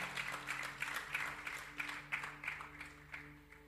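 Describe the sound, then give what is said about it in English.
Audience applause in a church, a dense, steady patter of clapping hands that fades slightly toward the end, with a sustained low tone beneath it. “Please put your hands together for Reverend.”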